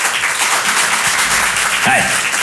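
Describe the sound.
Audience applause at a comedy show: dense, steady clapping from many hands fills the whole stretch at an even loudness, with a brief voice heard under it.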